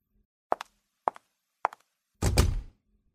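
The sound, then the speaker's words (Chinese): A door being shut: three short double thumps at even intervals, then a louder, fuller burst of about half a second. “我为什么要把门关上？”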